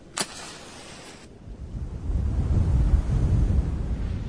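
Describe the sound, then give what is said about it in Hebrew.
A strong gust of wind blows out a candle, swelling from a quiet hiss into a loud, low, rumbling roar that carries on to the end. “רק סיימתי את דבריי, רוח חזקה באה וחיבטה לי את הנר”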